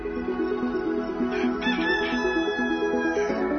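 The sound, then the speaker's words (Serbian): Roosters crowing in the morning: a few drawn-out, harmonic crows overlap one another, loud and continuous, with no talk. “I tako su petlovi otkokurikali svoje za ovo jutro.”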